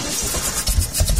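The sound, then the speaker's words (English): A struggling diesel truck engine gives off a rough, steady rumble with broad hiss, and low uneven thumps push through in the second half. “That sound is a major headache. For diesel truck and fleet owners, a struggling engine means lost time, lost income, and canceled plans.”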